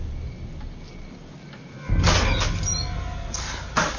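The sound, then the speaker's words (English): A closet door in a house is swung open: after a quiet stretch, a sudden broad rushing sweep rises and holds for about two seconds, followed by a short second burst near the end. “She slowly turns and swings the door open.”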